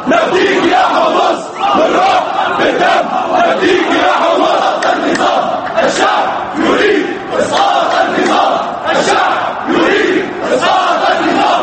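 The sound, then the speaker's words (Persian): Protest marchers in Damascus chanting loudly in solidarity with residents of Homs, many voices repeating short phrases together in a strong, steady rhythm. “در شهر دمشق راهپیمایان همبستگی خود را با ساکنین شهر هومس با صدای بلند اعلام کردند.”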